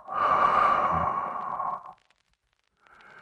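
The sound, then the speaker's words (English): A slow exhaling breath during a guided bedtime breathing exercise: one long, steady, airy exhale lasting about two seconds, followed by quiet and then the faint start of another breath. “One, two, three. And exhale.”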